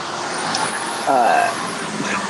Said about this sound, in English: well, hello, truck.